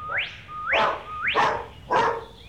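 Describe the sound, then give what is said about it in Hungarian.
A dog whines and yelps in four rising, high-pitched cries, each one sweeping sharply upward before breaking off, loud and evenly spaced with short gaps between them. “Mit érez ez a kutya?”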